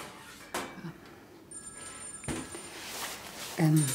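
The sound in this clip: A telephone rings in a short, faint burst of electronic ringing, with voices heard around it.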